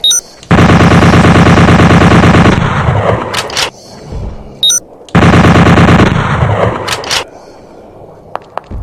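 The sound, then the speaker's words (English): Automatic bolt gun firing in a video game: two long, rapid bursts of loud mechanical shots, each lasting about two seconds, separated by quieter rattling clatter and a few sharp clicks. “Automatic bolt gun.”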